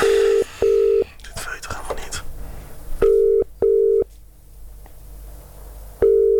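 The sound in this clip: Telephone ringing tone on an outgoing call: steady mid-pitched tone bursts in two pairs, followed by a fifth burst at the end, with quiet line noise in the gaps.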